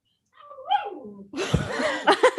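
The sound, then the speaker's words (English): A young puppy whimpers with a high, falling whine, then makes a burst of noisier snuffling sounds and a few short yips, all fairly faint. “Sorry if you heard my dog in the background.”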